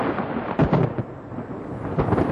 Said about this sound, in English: We also get continental thunderstorms which come off the land, very violent thunderstorms with a mixture of hot arid dry air and hot humid air.